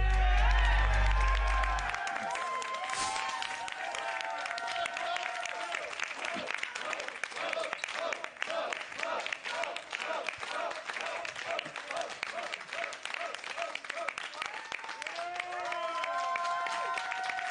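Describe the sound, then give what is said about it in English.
Wrestling fans at an NWA Power event cheer and applaud the Pope's return, with dense clapping and crowd shouts running throughout while a commentator talks over them. A deep booming burst opens the first two seconds. “Pope, you hear the fans? It's been weeks since we've seen you.”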